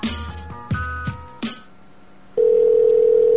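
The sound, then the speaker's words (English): A telephone line gives a few short tonal blips and clicks, then a loud, steady mid-pitched tone that holds to the end, the lead-in to a number-not-in-service recording. “The telephone number you have dialed is temporarily not in service.”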